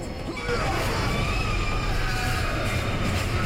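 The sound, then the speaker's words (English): A train pulling into a station beside the platform, a loud, dense roar and rattle of rail noise that swells in the first half second and then holds steady. “glares at Mitchell, sprawled out as another train pulls in behind him.”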